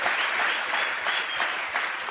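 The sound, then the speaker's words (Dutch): A church audience gives a round of applause for a group of church founders. The clapping is brief, dense and even, with a slight swell and ebb across a couple of seconds. “You gotta give these guys a huge hand. Je moet ze een groot applaus geven.”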